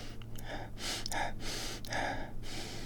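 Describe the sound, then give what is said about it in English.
Sniffing tea leaves taken out of a teapot. A few faint, breathy inhalations with an airy hiss come in short bursts, quiet and with no talk. “Take the tea out of the teapot and get a big whiff.”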